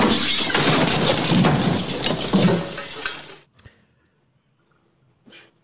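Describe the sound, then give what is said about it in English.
Chair, boxes and a projector crashing down to the floor at the foot of attic stairs: a loud, sustained clattering crash with glassy clinks lasting about three seconds, then a few faint knocks and rattles after it dies away. “the chair, the boxes, and the projector crash down to the floor”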